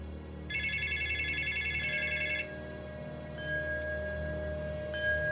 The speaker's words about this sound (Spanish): Al momento suena de nuevo el teléfono junto al que está la foto de Mary.